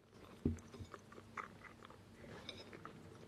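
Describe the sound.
Cinnamon apple pie is bitten with one crisp crunch near the start, followed by faint, soft chewing and a few small crumbly clicks, all quiet.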